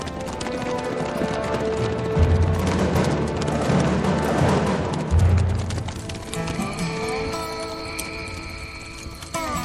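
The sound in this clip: Horses gallop in a loud, rapid drumming of hooves with a couple of heavy thumps, while music swells and takes over in the second half.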